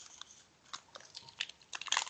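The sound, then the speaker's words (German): Crisp crunching and chewing of a Deutsche Bahn guest biscuit, with many small, irregular bites and crackles that grow denser and louder toward the end. “Ich werde jetzt meinen Lieblingsgastkeks essen von der Deutschen Bahn”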